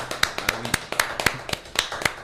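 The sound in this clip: A small group claps by hand. Separate sharp claps land at an uneven, loose rhythm instead of merging into a wash, and a few louder smacks stand out among softer ones.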